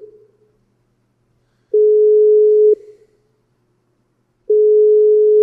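A phone call rings unanswered, heard as the caller's ringback tone. A steady, pure mid-pitched tone sounds for about a second, stops for a longer silence, then starts again, with a fading tail of an earlier tone at the start.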